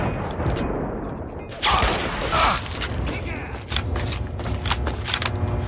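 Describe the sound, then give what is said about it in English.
Rifle gunfire in a video game firefight: many sharp cracks and bursts over a dense, noisy background, with a few louder blasts standing out partway through. “I'm gonna try to take out one of the guys from here with the rifle”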